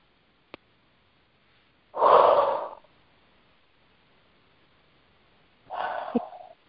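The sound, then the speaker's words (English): Deep breath taken in during a guided heart meditation, heard as a loud airy rush of air, followed a few seconds later by a second, shorter breath sound, with no talking. “Take a deep breath in there for me.”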